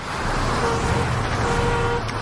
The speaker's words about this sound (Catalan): El soroll del trànsit estaria entre 50 i 60 decibels.